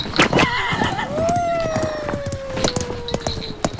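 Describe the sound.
A pony whinnies in a long, tonal call that slowly falls in pitch, fairly loud, with scattered short clicks and taps around it.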